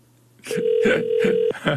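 An unanswered phone call rings out as a steady mid-pitched ringback tone, with a few short, brighter tonal bursts repeating at an even pace over it.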